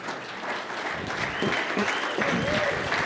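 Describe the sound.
An audience gives warm applause to welcome a speaker at a morning gathering. The dense, steady clapping is joined by a voice talking over it.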